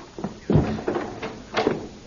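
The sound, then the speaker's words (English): Knocks at a door, several heavy, hollow thuds spaced irregularly, fairly soft, with no other sound around them. “there came a knock at the door like the crack of doom”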